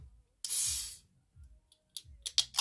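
Hiss of an energy drink can being opened: a sharp, loud burst of fizzing lasting about half a second, followed by a few faint clicks and rattles.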